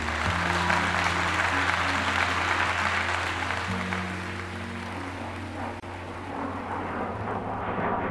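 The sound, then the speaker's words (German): Sustained applause from an audience giving a standing ovation after a speech calling for a ban on landmines, a steady dense roar of clapping with a low hum underneath. “Und Dianas flammende Rede, ein Aufruf zur internationalen Ächtung von tödlichen Landminen, erhält Standing Ovations.”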